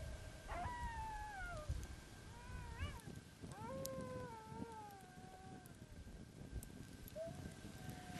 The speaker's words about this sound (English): It's extremely cold and I can hear the wolves howling.